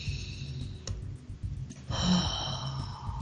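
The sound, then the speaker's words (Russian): A slow breath in and out, taken on instruction during a guided relaxation exercise. Soft and airy, with no talk, growing louder and fuller in the second half. “А сейчас сделайте вдох с выдохом.”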